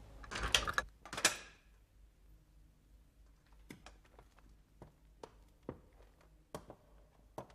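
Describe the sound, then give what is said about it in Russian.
A door being closed: two sharp, loud clunks come close together at the start, followed by a scattering of faint, light clicks and taps in the quiet that follows. “Закрывает дверь, уходит.”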